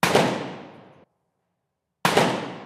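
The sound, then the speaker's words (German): Two gunshots on a shooting range, from a large-caliber pistol and small-caliber guns. Each loud crack rings and decays for about a second, and roughly a second of silence separates them. “Waffen klingen unterschiedlich. Links eine Pistole mit großem Kaliber. Rechts Kleinkaliber, wie sie bei Olympia benutzt werden”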